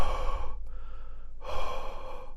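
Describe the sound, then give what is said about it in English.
A voice imitates heavy drunk breathing: two loud, rough, drawn-out breaths separated by a short pause, each a harsh airy rush that swells and then drops away. “I sat down, and I was just like, doing that drunk breathing, like,”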